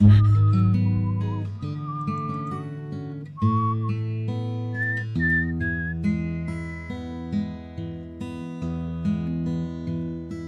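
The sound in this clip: A person whistling a tune as an introduction over instrumental music: a clear, pure-toned melody of held notes that steps higher midway, then stops while the backing music carries on.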